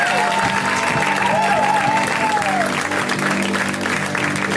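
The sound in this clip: Audience applause at a comedy show as a comedian is brought on, a loud, even roar of clapping that keeps going without a break.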